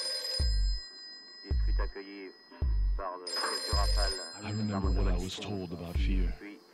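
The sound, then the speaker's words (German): A telephone bell rings in a few short, loud bursts, with voices speaking over and between the later rings. “Es kommt vor, dass das Telefon klingelt.”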